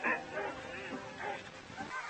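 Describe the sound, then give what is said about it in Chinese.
Sled dogs at a sled dog race in the Yukon give many quick, faint yips and barks, an excited overlapping chorus of high, short calls. “刚到育空地区，他们就赶上了这里著名的雪橇犬大赛。”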